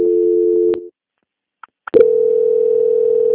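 A steady telephone tone during a call transfer cuts off abruptly, followed by near silence with two faint clicks, then a loud continuous tone resumes and holds to the end.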